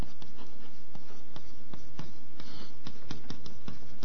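Writing on a board: a long series of short, crisp taps and scratches in a steady, fairly even rhythm, with no voices.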